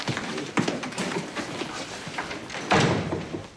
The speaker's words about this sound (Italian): Vieni nel mio ufficio e chiudi la porta.